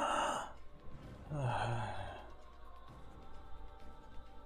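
A breath-like gasp heard twice: an airy burst at the very start, then a longer breathy exhale with a low voiced tone about a second later, followed by faint background noise.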